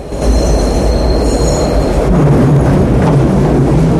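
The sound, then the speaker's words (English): A train pulling into a station, with a loud steady rumble of wheels on rails, thin high squealing tones in the first half and a low droning hum coming in later. “Leo and Rhino run onto the platform just as their train pulls in”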